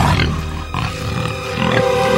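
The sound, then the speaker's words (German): Wild boar grunting: a few rough, low, snuffling grunts blend into a dense, noisy background, with no clear pauses between them. “Das Wildschwein interessiert sich besonders für Dillings Aktenkoffer.”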